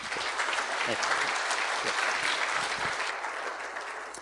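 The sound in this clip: An audience applauds to welcome a speaker, with dense, steady clapping that holds throughout and tapers slightly toward the end.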